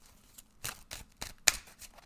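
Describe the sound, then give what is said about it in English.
Tarot cards are drawn from a deck, giving several short, crisp papery swishes and snaps in an uneven rhythm, with the sharpest snap near the end, all heard alone without talk. “let's go ahead and pull some cards.”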